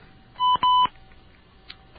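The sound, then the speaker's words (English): Telephone keypad DTMF dialing tones, two clear electronic beeps close together, the second held a little longer, followed by quiet and one faint short blip. “Please dial your phone number followed by the pound key.”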